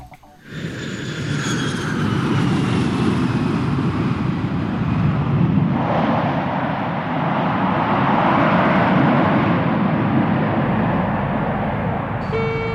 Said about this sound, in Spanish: vamos a aterrizar el avión primero